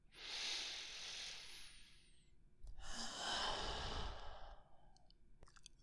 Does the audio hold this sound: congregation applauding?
no